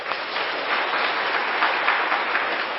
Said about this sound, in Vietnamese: Các bạn giỏi. Hoan nghênh cái này đi.